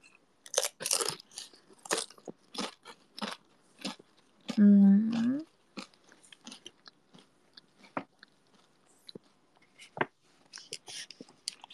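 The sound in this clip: Crunchy chewing of potato chips right after a ramen meal: many sharp, dry crunches in an irregular rhythm, fairly loud and close, continuing through the whole stretch.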